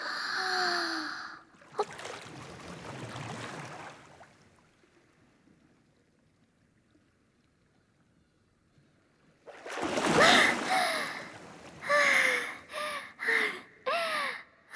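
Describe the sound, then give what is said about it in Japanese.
Someone dives into the sea with a splashing rush of water, followed by a long, muffled, near-silent stretch underwater. Resurfacing brings bursts of splashing and breathy gasps. “ごめんね、急に潜っちゃって。お魚泳いでるかなと思ってちょっと潜ってみたの。”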